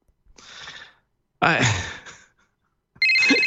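A telephone rings with an incoming call in three short electronic bursts separated by brief silences, the last burst cut off at the end.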